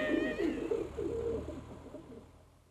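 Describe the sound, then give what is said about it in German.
A pigeon coos in low, throaty, warbling phrases. A few rolling coos come in succession, then trail off and fade toward the end. “Ob ihr's glaubt oder nicht, die Taube ist in ihrem Schreck mitsamt dem Pumuckl auf das Dach des Vorderhauses hinaufgeflogen.”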